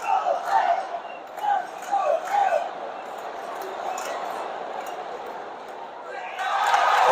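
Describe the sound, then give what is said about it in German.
New York Mets fans in the stadium crowd during a baseball game, a broad murmur of cheering that sits under a man talking at first, then swells louder toward the end. “Ihr hört hier gerade im Hintergrund die Mets-Fans.”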